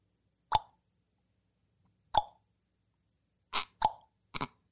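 Tongue clicks made by mouth to imitate a famous hip-hop click sound: a few sharp, hollow pops set apart by pauses, with the last ones coming in quick succession and nothing else heard between them.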